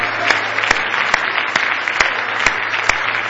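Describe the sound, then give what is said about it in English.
An audience clapping hands in praise at a church service: a loud, dense wash of applause with sharp accented claps landing on a steady beat, about seven in all, over a low constant hum. “Oh, if you love Him, give Him a big hand clap of praise.”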